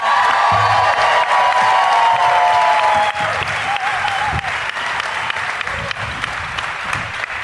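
Loud applause for comedian Jim Norton as he comes out, with cheers and whoops from the crowd mixed into sustained clapping that stays strong for several seconds and eases only slightly.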